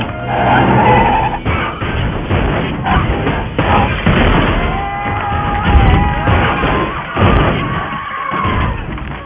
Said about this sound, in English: I pull the wheel to the left, yank the handbrake, we do a 180, cross the median, drive right past it.